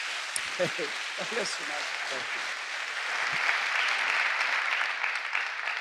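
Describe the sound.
Congregation applause at Kensington Temple welcoming a returning guest speaker, a steady roar of clapping that swells slightly midway, with a brief voice over it at the start.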